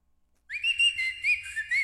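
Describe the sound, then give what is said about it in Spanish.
Dolphin whistling: after a brief near-silence, a high, clear warbling tone with faint overtones sets in and continues as a run of wavering whistle notes that dip and rise in pitch, fairly loud and alone. “así dice un delfín”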